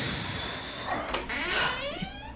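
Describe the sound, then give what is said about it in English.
A door in a video game slides open with a faint mechanical whoosh and a smooth sweeping tone that climbs upward as it moves, without any talking over it. “Wait, if you didn't make it, why did that door open?”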